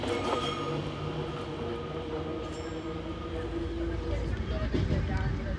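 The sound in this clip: Steady, loud rumble of an old Fiat train running on rails on the Catania–Paternò line, a continuous rolling drone of wheels and carriage noise with no clear break.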